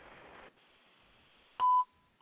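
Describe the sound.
A telephone dialing tone sounds once as a short, loud, clean beep after a stretch of faint hiss. A tiny faint click follows near the end.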